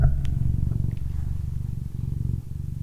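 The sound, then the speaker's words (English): A house cat purrs with a steady, low, rhythmic rumble that pulses evenly throughout and stays fairly loud and continuous. “That's our cat purring.”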